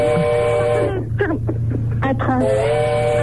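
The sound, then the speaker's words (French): A train at the Besançon railway station gives a sustained, wailing multi-tone sound that drops away while a voice speaks briefly, then returns just as steady. “Un train.”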